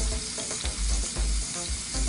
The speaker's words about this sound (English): So you get that little pool of oil. And then I'm gonna add my garlic in there, and that's gonna kind of flavor my oil.